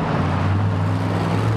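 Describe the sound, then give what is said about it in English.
Monster truck engines rumbling with a deep, steady, continuous drone and low humming tones, loud and unbroken, with no talk. “That sound is something else, isn't it? Yeah, just hearing the motors run and the rumble, the feel of the horsepower.”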